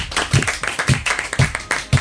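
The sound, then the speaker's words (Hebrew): Rhythmic applause on a game show: clapping in a steady beat about twice per second, with four strong accented claps among lighter ones. “רבותיי, מחיאות כפיים למנחם”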